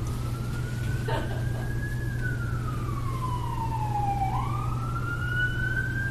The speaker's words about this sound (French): Nous sommes assis, la sirène et moi,